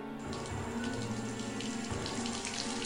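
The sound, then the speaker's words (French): Water pouring in through a leak as the level rises, heard as a steady, continuous rushing and splashing that stays loud throughout, with no voices. “Vous direz qu'il y a une fuite. Quel sens de l'observation, Kevin? Il y a l'eau qui monte”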